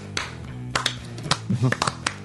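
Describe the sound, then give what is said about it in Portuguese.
Several sharp, scattered handclaps from a few people, irregular and uneven in timing, mixed in with voices talking. “Vocês nem sabem por que vocês estão batendo palma.”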